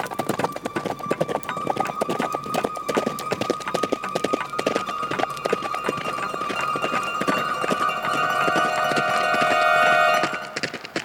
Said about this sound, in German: sie gab ihrem Pferd die Sporen und sprengte die schmale, gefährliche Straße entlang.